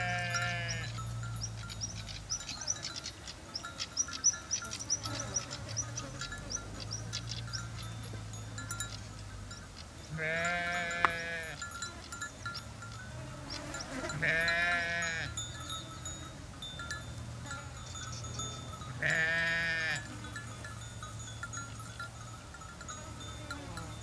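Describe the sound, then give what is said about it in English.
Sheep wearing bells bleat in the mountains, with about four drawn-out, wavering bleats spaced several seconds apart over a steady low hum and a constant background wash. “So naturally, I had to record these bell sheep, as I called them.”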